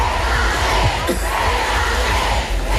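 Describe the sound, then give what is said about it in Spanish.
A stadium crowd chants "Alexia, quédate" for Alexia Putellas at a celebration of Barça's women's Champions League title, a loud, continuous mass of shouting voices with rhythmic swells. “muy comentado este momento de la celebración en el que el público pues corea Alexia, quédate”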